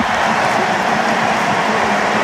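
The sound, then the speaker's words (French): A stadium crowd roars in a dense, steady, loud ovation as a football player leaves the pitch in a substitution, a continuous wash of cheering and applause. “Écoutez l'ovation pour Kylian Mbappé. Et il n'y a que 3000 Français, je vous le rappelle, dans ce stade. C'est une ovation mondiale.”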